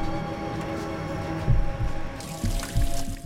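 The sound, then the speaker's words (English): Water runs from a tap as hands are rinsed beneath it: a steady splashing hiss with a few heavier bursts of spatter as the hands move through the stream. “Hands being rinsed under a running tap.”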